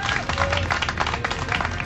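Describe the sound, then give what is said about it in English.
Studio audience applause during a live talk radio hour, a steady, dense wash of clapping that holds at an even level for the whole short stretch. “Let's have a serious round of applause here.”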